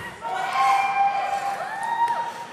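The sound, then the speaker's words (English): Crowd cheering at a campaign announcement of a run for US President: loud, sustained crowd noise that swells and holds for a couple of seconds, with voices rising above it. “And, from his dais, this god, too, brought the good tidings to the cheering crowd.”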